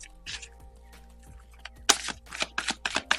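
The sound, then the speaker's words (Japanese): Tarot cards are shuffled for a card reading: after a quiet start over a low hum, a few short, crisp rustling bursts follow in quick succession. “カードリーディングしていきましょう。カードシャッフルします。少々お待ちください。”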